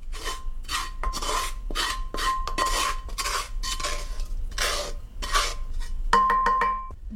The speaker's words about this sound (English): I'm going to add the tadka into the dal.